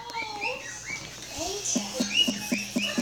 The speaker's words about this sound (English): If you guys can hear that, that's the birds. Well, the one birdie.